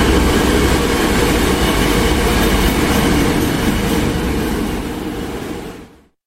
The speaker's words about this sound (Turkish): 221 yolcu kapasiteli hızlı tren hızlı ve konforlu ulaşım imkanı sunuyor.